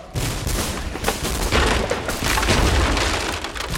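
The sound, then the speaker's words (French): Gunfire erupts at a barricade during revolutionary street fighting: a dense, sustained volley of loud cracks and booming blasts with a continuous crackle and no pauses. No one speaks. “Une effroyable détonation éclata sur la barricade.”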